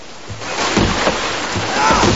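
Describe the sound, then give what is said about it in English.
Water surges through the breached hull of a sailing warship into the ship. The rushing, churning roar is loud and constant, and heavier swells rise and fall within it. “Crewmen are struggling to stem the torrent of water coming in through the hull.”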